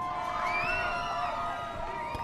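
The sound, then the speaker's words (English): Protesters and arriving convention delegates cheer back and forth, a fairly faint mix of shouting, whooping voices rising and falling over a steady crowd murmur. “Some cheering going on, cheering back and forth between the protesters and the delegates who are raising their arms.”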